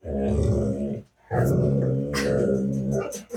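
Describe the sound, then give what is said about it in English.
A female dog growling in two long, low, rumbling stretches separated by a brief pause, loud and steady with no talk over it. “That is not a lightsaber. That is our dog.”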